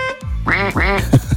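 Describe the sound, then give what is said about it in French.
Duck quacks as a sound effect: a few nasal, buzzy quacks, two drawn-out ones followed by shorter, clipped ones, loud and close together. “Le tutu de coin-coin, ça fait comme ça.”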